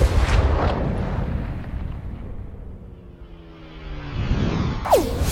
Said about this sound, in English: This was the first shot that officially started the American Revolution.